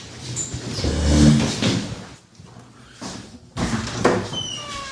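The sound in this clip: A door is opened during a talk about homeless women in a city neighbourhood. A broad rumbling, scraping noise swells, dips into a quieter gap, and then returns.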